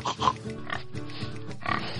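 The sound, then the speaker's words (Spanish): A human voice imitates a pig oinking. It makes a run of rough, nasal, grunting snorts that repeat steadily at a moderate loudness with no speech in between. “Era un chancho. ¿Un chancho? Un chancho. De hecho, empieza a sonar así como...”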